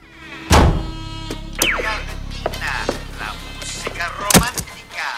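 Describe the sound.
A man crashes into a chair with a heavy thunk, followed by scattered smaller knocks and scuffs as he hurries off. A door then closes with another solid, loud thud near the end.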